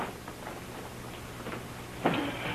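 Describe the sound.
A closet door is opened and a pile of comic books tumbles out. A quiet shuffle is followed by a single sharp thump near the end, with no talk.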